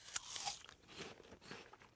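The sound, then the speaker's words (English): Faint, crisp crunches come from biting into a red apple with white flesh, a few sharp snaps followed by softer crunching bites. “Okay, so we crunch.”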